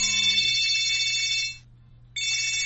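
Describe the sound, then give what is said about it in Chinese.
A mobile phone rings with a bright, steady electronic tone. It sounds for about a second and a half, cuts off briefly, then starts again over a low constant hum. “哦，是你的电话。”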